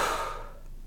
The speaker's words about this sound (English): Breathe in through your nose, out through your mouth.